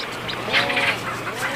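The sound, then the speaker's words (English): Storm petrels calling and squawking at a seabird burrow colony, overlapping warbling, chattering calls over a steady noisy background. “They pretty quickly get drowned out by storm petrels, so that's the ones that go doo-doo-doo-doo and are squawking.”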